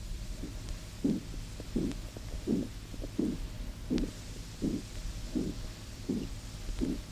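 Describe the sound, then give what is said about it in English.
A loud systolic murmur recorded at the left groin of a 55-year-old man, over an occluded femoral artery with a severely narrowed femoral trunk: about ten regular, low, whooshing pulses rise out of a steady background hiss. “Microphone at the left inguinal region, a loud systolic murmur is heard.”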